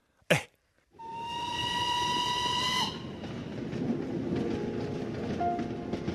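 Steam train whistle on a train bound for Yan'an: one long, bright, high whistle sounds for about two seconds, then gives way to the continuous rumble of the moving train. A single sharp click comes just before the whistle.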